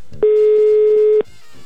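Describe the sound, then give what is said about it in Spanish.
A telephone tone sounds while a call is being placed, one steady, loud, pitched beep held for about a second, then dropping back to a low background. “Estoy intentando marcar. Son las 10:02. Ya entró la llamada”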